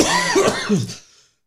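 A harsh, rasping cough and throat clearing from someone with something stuck in the throat: one loud, continuous fit lasting about a second before it fades to silence.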